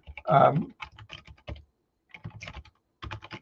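Typing on a computer keyboard while entering commands at a Python interpreter prompt: bursts of light key clicks come in several uneven groups, with short pauses between them.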